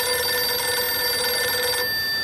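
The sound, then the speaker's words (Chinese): A telephone rings with a loud, continuous electronic tone that holds steady and unbroken for the whole clip, with a slight change in the tone near the end. “孙连仲赶紧给池峰城打了电话”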